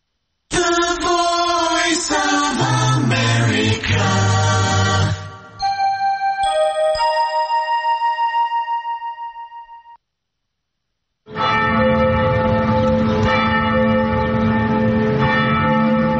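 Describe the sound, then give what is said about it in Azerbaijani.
Bells of an ancient church in Rouen, France, ring in a loud clashing peal, then give way to evenly spaced single strokes that fade out. After a brief silence the full peal resumes. “Rovində yerləşən qədim kilsənin zəngləri çalır”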